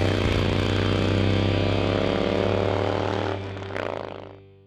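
A Harley-Davidson motorcycle engine runs with a loud, steady, harmonic rumble throughout, easing off slightly near the end with a brief swell just before it cuts off.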